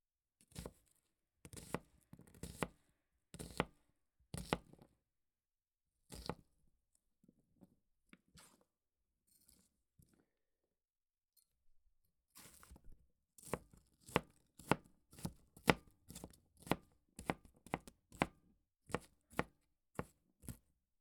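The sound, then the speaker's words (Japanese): A kitchen knife finely chopping onion gives crisp, rapid chops in fast bursts. A stretch of softer, sparse taps sits between them, then dense chopping resumes. No voices. “玉ねぎを切っても全然涙が出ません。”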